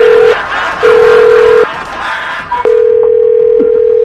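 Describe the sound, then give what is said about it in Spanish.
Telephone tones as a number is dialed: three long, steady, low electronic tones separated by short gaps, with one brief higher beep just before the last tone, over faint background noise. “vamos a marcar”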